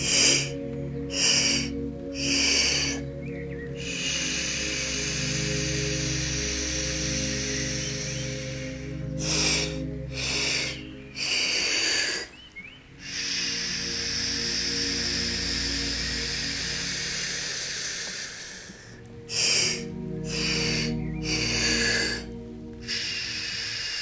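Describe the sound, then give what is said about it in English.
Breathing in and out through gritted teeth during a guided meditation, with long, hissing breaths at a steady pace broken by short, sharp gaps. “Inhale. Exhale, gritted teeth. Follow my pace.”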